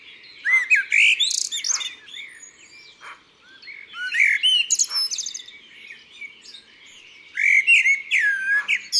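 A songbird sings warm, fluted, melodious phrases in several bursts, each a run of bright whistled notes, with a quieter, very high flourish near the end.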